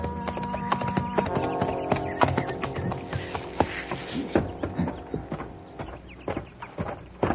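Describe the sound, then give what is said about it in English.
Horse hooves clip-clop as a rider comes up to a ranch house near sundown: many irregular, crisp hoof strikes at a loose walking rhythm, moderately loud and without talk. “It was near sundown when I rode up to the Barton Ranch house.”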